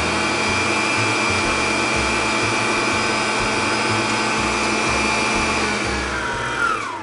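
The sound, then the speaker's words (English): Whirring of an electric mixer whipping eggs and sugar to firm peaks, a steady motor drone with a low rhythmic pulsing that winds down in pitch at the very end. “So now that our eggs have whipped up to a nice firm peaks here, and I've gotten all of our sugar in here”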